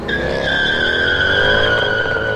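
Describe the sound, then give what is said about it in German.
Tires screech as a black Mercedes speeds away: a loud, continuous high squeal that holds steady for about two seconds over a low engine rumble. “Ich glaub's nicht. Der ist jetzt mit einem Auto abgehauen. Ja, ein schwarzer Mercedes.”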